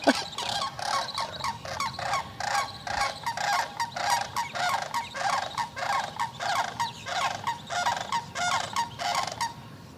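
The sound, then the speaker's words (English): Big red-headed cranes about 50 yards away call loudly in a steady, rhythmic series of harsh, honking, gobble-like notes, repeating many times without pause. “Those things are about 50 yards away and they're that loud. Big cranes, the ones with the red heads.”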